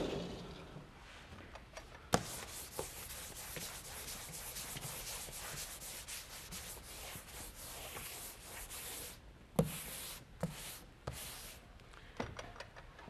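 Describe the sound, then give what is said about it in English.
Someone writes on a board during a university lecture, making a continuous run of soft scratching and rubbing strokes with a few light taps in between. The whole sound stays quiet. “Let me write down a little bit about this.”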